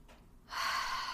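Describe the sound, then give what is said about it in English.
A single deep breath drawn in during a guided breathing exercise: a soft start swelling into a sustained, airy hiss that holds to the end. “we are going to breathe in more of what was in alignment for us this week.”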